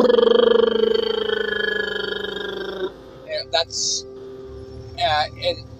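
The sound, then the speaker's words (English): A voice imitates a truck's Jake brake (engine retarder) with a low, buzzing, rapidly pulsing drone that lasts about three seconds and gradually fades. A few brief vocal sounds follow. “They use the Jake brake, which, if you don't know what that term is, that's, you know, when a truck goes by and you hear,”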